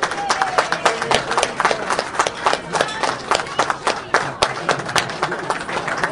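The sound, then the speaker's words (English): A crowd gives a round of applause for a speaker's wife and daughter, many sharp, distinct hand claps at a brisk, uneven pace, loud and continuous for several seconds. “Can we give them a round of applause, too?”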